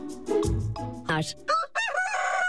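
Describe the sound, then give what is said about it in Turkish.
A rooster crows at dawn in the countryside, a loud, strained, harmonic call that stretches and wavers over the second half, preceded by a lower, rougher sound. “Horozların ötmesi özellikle kırsal kesimde sabahın habercisi olarak kullanılıyordu.”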